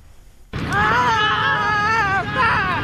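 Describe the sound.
Shouting of players at a disabled athletes' sports gala at Mardan Sports Complex. A short quiet start gives way to loud, sustained, wavering shouts that swell again near the end.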